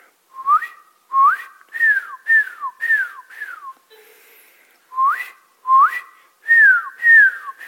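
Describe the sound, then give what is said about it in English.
A person whistles in imitation of birds. Many short, clear, high notes slide up and down in two quick phrases, broken by a brief pause. “we had these birds in there all the time. I was going to do the whistle, but I don't know if I could whistle with my voice.”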